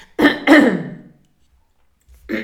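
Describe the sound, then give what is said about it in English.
A person clearing their throat and coughing: two harsh, loud rasping bursts close together, a pause of about a second, then a shorter rough burst. “It's my throat. So now, it's okay. I'm not coughing anymore.”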